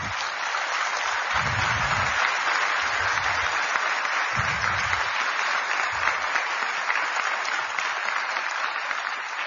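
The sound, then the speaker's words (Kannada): Loud, sustained applause from an audience at a gathering, where everyone has been asked to clap loudly; a dense, steady wash of clapping hands that holds throughout without a break. “ಜೋರಾಗಿ ಚಪ್ಪಾಳೆ ಮೂಲಕ ಎಲ್ಲರೂ ನಾವೆಲ್ಲ ಹೇಳೋಣಂತೆ.”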